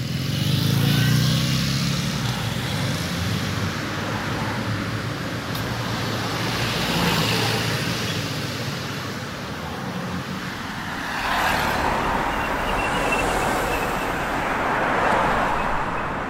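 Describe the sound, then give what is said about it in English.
Singapore street ambience in mono: a continuous, broad roar of passing cars and motorbikes. The steady traffic wash swells and eases slightly at times, with no clear voices. “You've been hearing Singapore ambient sounds in mono,”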